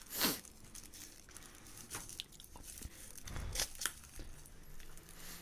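Paper crinkling and rustling as someone hand-rolls a cigarette: quiet, irregular crackles and soft scratchy rustles with a few sharper crinkles and no speech.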